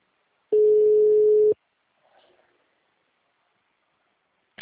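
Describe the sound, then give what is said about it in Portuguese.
Ringback tone of an outgoing telephone call: a single steady, mid-pitched tone about a second long, followed by near silence with a brief faint rustle. “Vai, tá tocando, meu. Vamos ver.”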